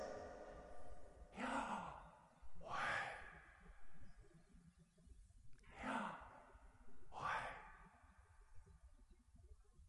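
Slow, deep breaths voicing the divine name YHWH: four long, breathy swells of air, each rising and fading, spaced evenly apart with quiet between them and no speech.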